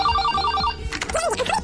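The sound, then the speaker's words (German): A telephone rings, a call to a woman in Australia, with a bright electronic tone that trills in quick repeated pulses. After about two-thirds of a second the ring gives way to a busier, warbling sound. “Eine Frau aus Australien bekommt den Anruf ihres Lebens und reagiert so.”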